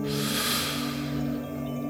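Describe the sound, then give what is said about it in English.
An inhale through the mouth during a guided breathing exercise: a soft, airy rush that is strongest in the first half-second and then fades, over steady low sustained tones. “So, start to breathe in through the mouth”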